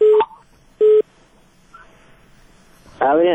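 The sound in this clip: Phone line tone on a radio call-in line after a caller's call drops: two steady, mid-pitched beeps of about a quarter second each, separated by quiet hiss, before a voice starts talking.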